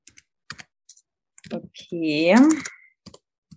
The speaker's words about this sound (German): Du schreibst also jetzt rein deinen Geburtstag, deine Geburtszeit und deinen Geburtsort.